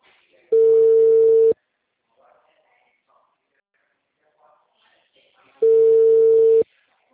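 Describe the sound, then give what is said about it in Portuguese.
Ringback tone of an outgoing WhatsApp phone call: two steady, mid-pitched ringing tones, each lasting about a second, separated by a long gap of faint background noise. “vou tentar ligar para você via WhatsApp, porque brasileiro não existe, né?”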